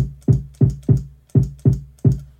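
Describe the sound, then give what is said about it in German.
Six punchy kick-drum sample hits from a personal drum-sample collection, each with a sharp thump and a short, deep decaying tail, played alone at slightly uneven spacing. “So, okay, hier meine Kick.”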